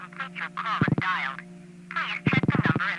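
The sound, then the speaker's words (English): Telephone dialing leaks through crosstalk on a recorded phone-line message. It comes as short bursts in two clusters, a brief one early and a longer run later, beneath a continuing recorded voice. “Those callers haven't noticed that they're connected to a recording, so they continue dialing. And we're hearing it because this recording arrangement has a lot of crosstalk.”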